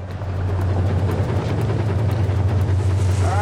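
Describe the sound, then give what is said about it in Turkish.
Water pumps run in a gold-mining video game: a steady, loud, low mechanical hum that builds in quickly at the start, with faint regular ticking above it. “Hadi pompaları çalıştıralım.”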